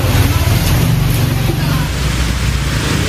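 Boats travel through flooded streets in Bangkok, giving a steady, loud, low engine drone with a constant wash of water and wind noise.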